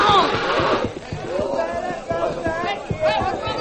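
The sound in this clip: A wild horse named Red, ridden without a saddle, clatters with rhythmic hoofbeats under excited shouting voices.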